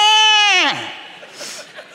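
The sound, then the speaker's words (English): A voice imitates a young boy's scream, compared to a gutted pig: a loud, high, strained squeal held for under a second, then a sharp drop in pitch that trails into quieter breathy noise. “The third boy gets beat up a lot, and he screams, and he sounds like a gutted pig.”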